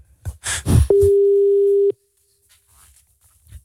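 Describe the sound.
A telephone line tone plays while a call is placed: one steady, mid-pitched beep lasting about a second, followed by quiet.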